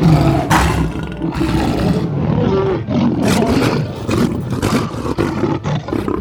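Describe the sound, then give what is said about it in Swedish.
African lions roaring in a safari park enclosure: loud, rough, drawn-out roars and growls rolling on almost without pause, broken by deep grunting bursts. “Här i Lejonens dal ska du få möta de afrikanska lejonen.”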